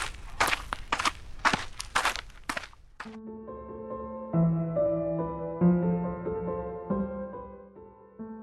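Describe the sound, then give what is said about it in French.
Footsteps of a woman walking through a cave: a quick run of several crisp steps over about three seconds, then sustained, layered musical tones that carry on to the end. “Elle lève sa torche bien haut et se met à marcher.”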